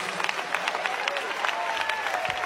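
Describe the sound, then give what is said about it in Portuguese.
A church audience claps their hands in a steady, dense patter of overlapping claps that continues without a break at an even volume. “Pode bater as palmas para Jesus.”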